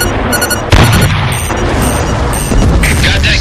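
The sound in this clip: A heavy gun firing standard shells at artillery on a bridge in a tank battle game: a sharp boom, then a second blast a couple of seconds later, over constant rumbling battle noise.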